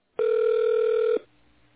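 A single long ringback tone from a telephone call being transferred to an operator on a bank's technical support line. It is steady and mid-pitched, lasts about one second, then cuts off to a faint line hiss.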